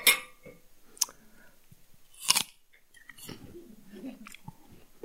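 Chewing of small cut pieces of fruit: a few sharp, crunchy bites stand out, followed by softer, continuous moist chewing.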